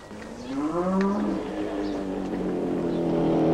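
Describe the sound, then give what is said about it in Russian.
Cattle mooing while grazing in a meadow: one long, low, drawn-out moo that rises slightly and then holds steady over a constant broad wash of background noise. “Коровы пасутся на лугу.”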